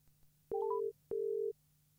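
A telephone signal tone sounds as two steady, mid-pitched electronic beeps of equal length with a short gap between them, alone with no voices.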